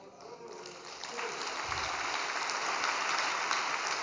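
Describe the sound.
Spontaneous applause from a gathered audience. The clapping begins soft and scattered, then swells into a fuller, steady patter of many hands.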